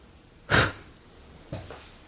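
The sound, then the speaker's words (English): Breath blown out over a candle flame: one short, strong breathy puff, then a softer breath about a second later, with no talking. “I'm going to blow out my candle.”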